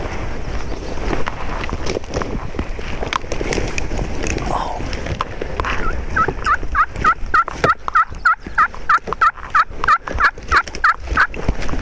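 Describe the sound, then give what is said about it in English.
A wild turkey gobbling as it approaches during a hunt: after a stretch of rustling movement, a long train of rapid, evenly spaced throaty pulses fills the second half, fairly loud and regular. “it will give me more of a view to my right, which is where the turkey is approaching from”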